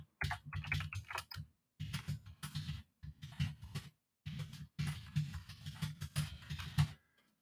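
Computer keyboard typing comes in several quick bursts of clustered key clicks, separated by short pauses, at a moderate level with no voices.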